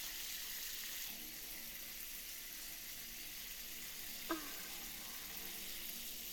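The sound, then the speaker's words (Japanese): Hot water poured over the head during a hair wash, a steady, soft, even hiss throughout, broken only by one brief knock. “それではお湯をおかけしますね。”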